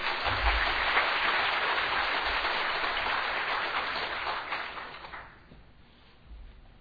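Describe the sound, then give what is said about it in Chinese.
A church audience applauds with dense, steady clapping that stays loud for about five seconds, then thins out and fades, with a brief swell near the end. “安宁姐妹啊，请我们鼓掌一下好吗？”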